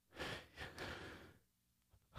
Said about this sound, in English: Let me take a deep breath here.